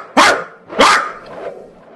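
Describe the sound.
A voice imitates the bark of a frightened, nearly crippled dog that cannot use its back legs: two loud, sharp barks about half a second apart, each trailing off, with no other sound.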